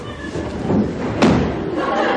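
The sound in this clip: A wardrobe door is forced open, with a dull thump standing out against steady, rough background noise.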